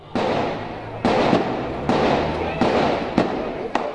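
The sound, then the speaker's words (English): Gunfire during an attack on a kosher market in New Jersey: several sharp bangs, each with a rough noisy tail, come at irregular intervals over a few seconds. “That was the sound of an attack on a kosher market in New Jersey just a few weeks ago”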